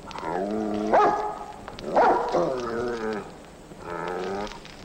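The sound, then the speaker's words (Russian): A dog gives three drawn-out, howling barks, each about a second long with a wavering tone. They are evenly spaced over a steady background hiss. “Лает собака.”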